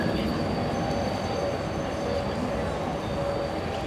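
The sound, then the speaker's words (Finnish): Train made up of old railway cars arriving, heard as a continuous low, even rumble with faint thin squealing lines above it and no distinct clacks. “Siis nämä vaunut näyttää, siis nämä on ihan vanhoja vaunuja.”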